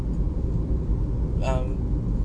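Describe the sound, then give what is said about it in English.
A car drives slowly through the small town of Kulim, giving a steady low engine rumble throughout, with a brief voice partway through. “As I'm driving around in this small town of Kulim, and people are very, very slowly driving, the motorcycles are aggressively”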